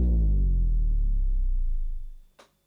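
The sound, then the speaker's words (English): A soft sine-wave pitch-down transition effect: a low tone with gentle overtones slides steadily downward and fades over about two seconds, followed by a brief faint click. “the third transition effect out is the downer, or a pitch down effect, which is usually it's a sine wave that goes down in pitch”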